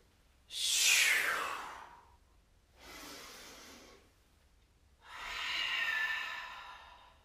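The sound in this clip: Deep yoga breathing: three long, airy breaths separated by short pauses. The first is the loudest, the second is softer, and the third is full and drawn-out, with no talking.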